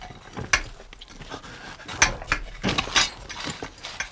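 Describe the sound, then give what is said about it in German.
An air hole being chiselled: a few sharp metallic knocks and clinks, spaced irregularly, with soft scraping between them at a fairly low level. “Wir meißeln ein Luftloch.”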